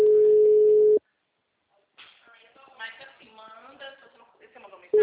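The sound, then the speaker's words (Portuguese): A telephone ringing tone during a call attempt: one steady, mid-pitched tone lasts about a second and then stops. After a gap a person talks, and the same tone starts again at the very end. “Tentando ligar. Mandei mensagem, tô tentando ligar.”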